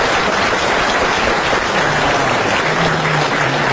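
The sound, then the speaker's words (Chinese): Warm audience applause at a comedy stage show, a thick, unbroken wash of many hands clapping loudly from start to finish with no talk over it. “可以了，热烈鼓掌。”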